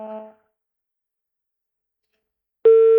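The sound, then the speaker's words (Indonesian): A telephone line tone plays after a phone-in call is cut off. After a brief faint sound and a long silence, one loud, steady, even tone sounds alone at the end. “Oke, sayang sekali ya, terputus, dan Kakak Ferdi bisa coba lagi.”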